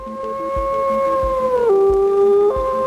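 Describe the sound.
Wolves howling: a long, clear tonal howl holds steady, then slides down in pitch and settles lower, with faint soft knocks underneath.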